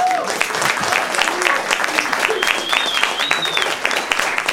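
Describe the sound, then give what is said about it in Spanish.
An audience applauds a university choir director at a concert: a loud, continuous crackle of many hands clapping, steady throughout, with a few voices mixed in. “quiero que le brindemos un aplauso al director del coro de la Universidad Veracruzana”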